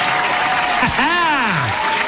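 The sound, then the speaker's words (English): A quick round of applause from a crowd, dense and steady throughout, with a brief whoop-like tone midway that rises and then slides down. “Let's give a quick round of applause for 204 no-namer.”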